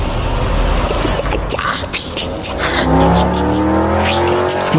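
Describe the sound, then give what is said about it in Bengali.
A car driven by young joyriders speeds past at high speed with a loud, continuous engine roar and rushing road noise. A strong engine tone stands out in the second half. “সেই সময় তার পাশ দিয়ে একটি গাড়ি প্রচণ্ড গতি নিয়ে বেরিয়ে গেল”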